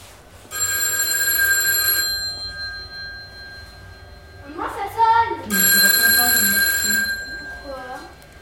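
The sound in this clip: A telephone rings with two long, bright, trilling bursts separated by a pause. A person speaks briefly between the rings.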